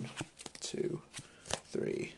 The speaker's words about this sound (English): Quest this turn, I draw 4 cards.